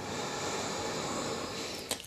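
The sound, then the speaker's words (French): A deep inhale through the nose during a Nauli Kriya yoga breathing exercise: a soft, steady breathy hiss lasting about two seconds, ending with a brief sharper catch. “On inspire.”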